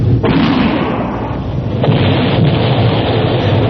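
A gunpowder blast set off to break a log jam gives a heavy, continuous rumbling roar that stays loud for the whole stretch, with no separate reports standing out.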